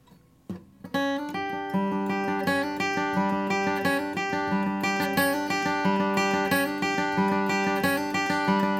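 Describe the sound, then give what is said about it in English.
Guitar plays a cross-picked banjo-roll lick over a G chord: a steady, rolling stream of bright plucked notes that ring into one another, played alone with no voices. “you can take that middle piece of the lick, we'll call it the banjo roll piece, and use that because it functions really well over a G chord. That would sound like this.”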